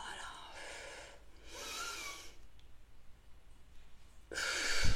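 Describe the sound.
Breathing during a shoulder-rolling exercise: three long, airy, hissing breaths in and out, separated by quiet pauses, the last one louder and stronger than the first two.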